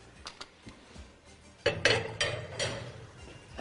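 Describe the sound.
A spoon stirs a heaping spoonful of tomato paste in a hot pan. A few light metallic clinks come first, then a louder stretch of sizzling and scraping with repeated knocks of the spoon against the pan.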